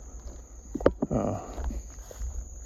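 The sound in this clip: Wet, squelching footsteps walking through mud, a few heavy, dull steps with a soft sucking texture, fairly loud against a quiet background.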